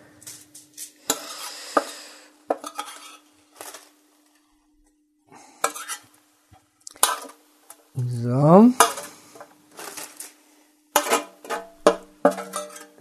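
Clattering pan and utensil sounds as paprika is added to onions and stirred in a frying pan, in irregular bursts of scraping and knocking, with a short rising tonal sweep partway through.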